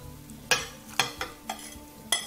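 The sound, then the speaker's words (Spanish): A utensil stirs five eggs with caramelized onion and 800 grams of potato in a bowl, giving about five sharp clinks against the bowl at an uneven pace over a low, steady background. “Y 5 huevos. Y esto lo movemos, lo vamos a dejar 5 minutitos ahí que vaya reposando.”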